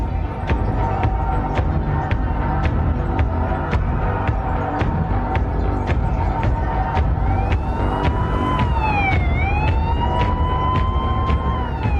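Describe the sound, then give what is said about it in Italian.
Police car sirens as cars speed past a movie theater in Texas: wailing sirens with sweeping rising and falling pitch emerge in the second half over a steady, loud rhythmic ticking background. “Mentre le auto della polizia sfrecciano di fronte al Texas Movie Theater”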